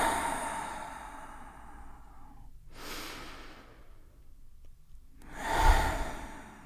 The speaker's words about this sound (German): nehmt 2, 3 tiefe Atemzüge ein und aus